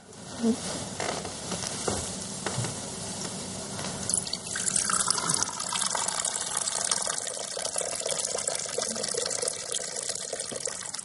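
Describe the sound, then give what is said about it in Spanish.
Champagne is poured from a teapot into a glass at a table during a magician's trick. A continuous, fairly faint splash and fizz of liquid runs unbroken throughout, with no voices. “El mago rellena la copa de la bebida espumosa y la joven lo prueba.”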